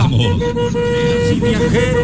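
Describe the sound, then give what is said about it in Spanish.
A car horn honks in one sustained, steady tone that lasts the whole clip, held at a constant loudness over dense background noise. “¡Ahí va la bocina!”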